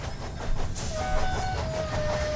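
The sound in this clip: A moving freight train gives a steady low rumble and clatter, with a thin, sustained high tone running above it for part of the time.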